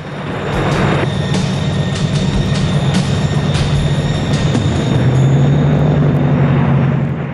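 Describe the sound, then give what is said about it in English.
Seaplane landing and skimming along the ocean surface, leaving a foamy wake: a loud, steady engine drone over a continuous rushing roar that holds throughout, its low hum shifting slightly in tone partway through. “The plane lands and skims along the ocean. The plane leaves a foamy trail in its wake.”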